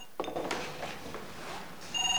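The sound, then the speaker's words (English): A telephone rings at home in short, faint electronic bursts, one near the start and another toward the end, over quiet background noise. “Sally keys a number into the phone. At home, Angie answers the call.”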